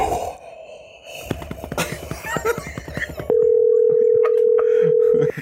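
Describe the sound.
An outgoing telephone call rings: after muffled voices and handling noise, a single steady ringback tone holds for about two seconds.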